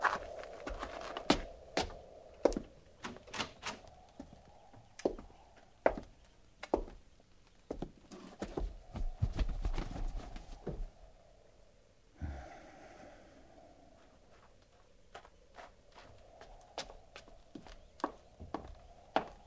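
Horses snort, puff and breathe heavily as they move about and are hobbled, with soft thuds of hooves or steps. Many sharp snorts and breaths come at irregular intervals throughout.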